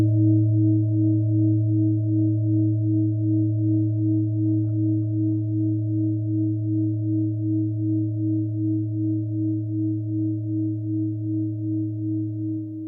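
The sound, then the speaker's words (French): Deep, sustained tone of a light 1.275 kg singing bowl used as an anchoring bowl. A steady low hum carries a clear overtone above it, pulsing gently and fading very slowly over about thirteen seconds. “Léger, 1,275 kg, mais on peut l'utiliser comme bol d'ancrage, facile à manipuler, mais il a vraiment un très très très beau grave. On le réécoute.”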